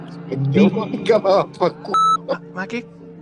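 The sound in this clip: An automatic answering machine gives one short, steady electronic beep, a pure high tone between stretches of people talking.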